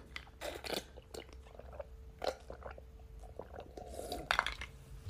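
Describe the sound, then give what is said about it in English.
Someone takes a drink of water to ease a dry throat, making a few faint gulps and swallowing clicks with soft mouth sounds between them. “Sorry, had to hydrate. My throat is a little dry.”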